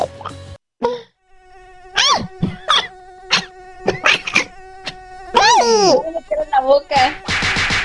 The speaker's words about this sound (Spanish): ¿Una mosca? No. ¡Vale! ¡La mosca!